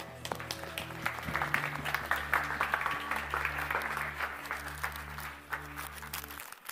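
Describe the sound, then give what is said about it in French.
A church audience applauds after a communion prayer, with irregular bursts of clapping over a steady low tone that cuts off near the end. “Et quelqu'un devrait dire Amen. pour applaudir le Seigneur.”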